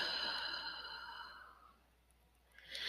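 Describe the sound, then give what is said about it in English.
A slow, deep exhale during a guided belly-breathing exercise, a soft breathy rush that fades away over about two seconds before a faint new breath begins. “Inhale deeply into the belly. Exhaling completely.”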